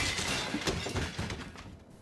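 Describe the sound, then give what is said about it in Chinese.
Tables, chairs, plates and bowls being smashed: a dense, noisy crashing clatter with several sharp impacts inside it, fairly faint and tapering off toward the end. “董卓听说华雄战死了，气的是暴跳如雷，桌子椅子盘子碗儿狂砸一气。”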